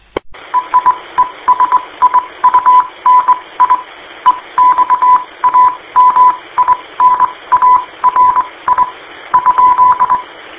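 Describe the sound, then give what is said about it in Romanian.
Morse code telegraphy over amateur radio: a loud, clear tone keyed on and off in many rapid dots and dashes, set over a constant bed of radio hiss. “Rugămintea mea e să veniți în SSB. Nu toată lumea pricepe telegrafie.”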